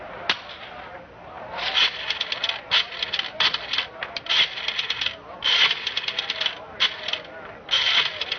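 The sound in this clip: Ratcheting mechanical clicks of a rotary telephone dial being turned in the dark to call the police, coming in several quick bursts separated by short pauses.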